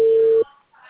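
Telephone call being placed: a single steady, pure beep tone lasting just under half a second cuts off abruptly, leaving a faint hum.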